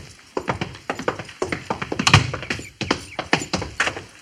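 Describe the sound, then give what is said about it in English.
Hoofbeats of a single horse carrying an Indian chief who rides alone toward a fort's main gate. Many hollow clops fall in an uneven trotting rhythm, with no voices. “I suppose that's the chief riding in alone.”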